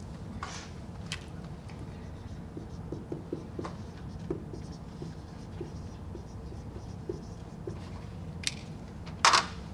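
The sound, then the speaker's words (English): Handwriting on a board gives faint scratchy strokes broken by small scattered taps, with a brief sharper squeak near the end, and no talking. “Hold on, I'll write it up there.”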